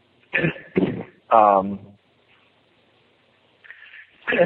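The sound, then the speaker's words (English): A person coughs: two sharp coughs, then a longer voiced throat sound, then a stretch of quiet before another short burst. “excuse me, I have some cough or something”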